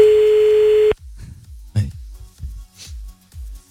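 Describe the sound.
A telephone ringing tone sounds as a call is placed, one steady, even tone lasting about a second, then voices talk.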